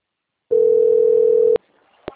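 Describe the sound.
A telephone sounds before a call is answered: a single steady, pure electronic tone lasting about a second, followed by two sharp clicks.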